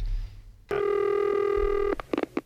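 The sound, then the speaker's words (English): Telephone tone as a call is placed to a cable company: one long, steady electronic tone of about a second, followed by a few short clicks and bursts. “All right, let's do the celebrity scam. This time we're going to use James Earl Jones to call a cable company.”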